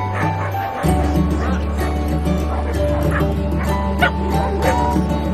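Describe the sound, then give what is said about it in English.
Dogs playing in pens: a steady stream of yips, whimpers and short barks, overlapping and continuous at a moderate level over a constant low hum. “Some get in the pens with the pets. Dogs romp and play.”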